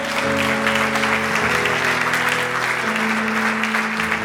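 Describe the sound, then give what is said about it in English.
A church audience applauds with steady, dense clapping that holds at an even loudness for about four seconds. “If you love Jesus, let me hear your hands.”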